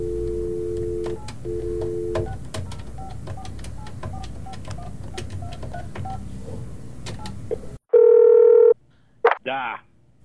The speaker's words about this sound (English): This is a long number to dial. Give me a second here.